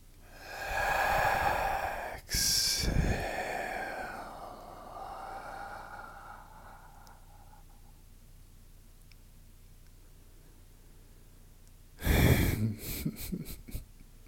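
A group of people inhales deeply together on cue during a guided breathing exercise, giving loud, airy, wheezy breath sounds that fade into a quieter stretch, followed near the end by a few short, breathy bursts.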